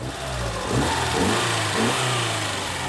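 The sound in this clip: A car engine running with a slight knock during an engine repair: a steady, rough, mid-pitched rumble that swells a little midway, with no talk.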